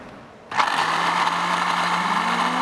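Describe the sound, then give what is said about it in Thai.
A blender blends beans and yogurt with the lid closed: after half a second of near quiet the motor starts abruptly into a loud, steady whirr, with a low hum climbing slowly in pitch toward the end. “คราวนี้ปิดฝาแล้วปั่นเลยครับ”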